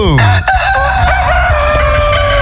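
A rooster crows loudly in one long call with strong, ringing harmonics. It carries on for the whole stretch, alone with no voices.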